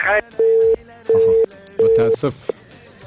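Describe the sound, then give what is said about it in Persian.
A phone line's tone after a dropped call: three even, steady mid-pitched beeps, each lasting about a third of a second and separated by short gaps, with voice-like sounds at the start and end. “متاسف هستیم که تماس سبقت لاجن قد شد.”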